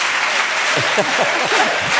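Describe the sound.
An audience claps steadily, a dense, even wash of applause with voices mixed underneath.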